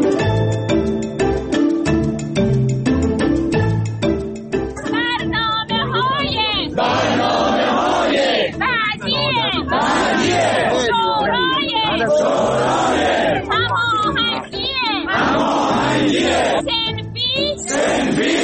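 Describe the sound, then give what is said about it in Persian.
A crowd of protesting teachers chants loudly in front of parliament in Iran. Rhythmic shouted slogans rise and fall continuously over a dense babble of many voices. “این صدای معلم‌های معترضی بود که برای رسیدگی به وضعیت حرفه‌ای و معیشتی”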